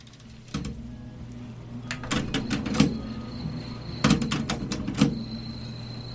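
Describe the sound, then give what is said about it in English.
Mechanical clicks and clunks from a tape player's mechanism: an early single knock, then two clusters of rapid, sharp clicks and rattles over a steady low hum. “Love hearing the tape player noises.”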